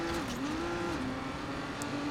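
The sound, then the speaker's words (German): Race car engine in the video game Trackmania, a steady buzzing drone whose pitch dips briefly and recovers as the throttle is eased and opened again, over a constant noisy roar. “Ui, so, und einmal über den Hügel drüber. Gas wegnehmen, Vollgas wiedergeben.”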